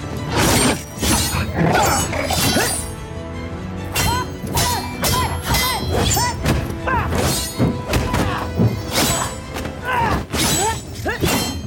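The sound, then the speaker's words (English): Sword fight clashes from a Star Trek: Picard scene featuring Raffi: many thuds, clangs and sharp impacts pile up densely throughout, with brief voices mixed in. “So this is the Raffi sword fight.”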